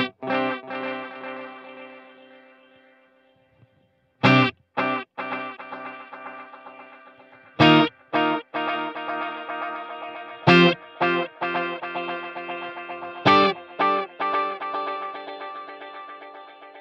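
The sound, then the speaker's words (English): Electric guitar through a delay pedal set to an ambient mode with high feedback: a sequence of plucked notes and chords, each followed by long, smeared echoes that pile up into a continuous shimmering wash between the sharper attacks. “I call this the fun mode, the ambient mode. That's where the delays are going to kind of feedback on themselves. I'll actually turn the feedback up a bit so you can hear this a little better.”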